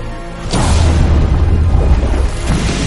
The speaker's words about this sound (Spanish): Coge una carga y aprieta el detonador.